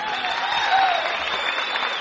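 Audience applause welcoming a performer, a dense, steady wash of clapping that holds at an even, fairly loud level for the whole two seconds.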